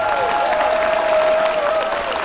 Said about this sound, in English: Give them a big round of applause, friends.